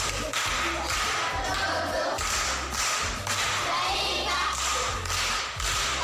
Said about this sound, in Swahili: Makofi kwa shangazi.